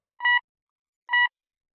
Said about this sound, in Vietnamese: Mấy tiếng tút lạnh lùng vang lên trong cái thở dài của bà Hai.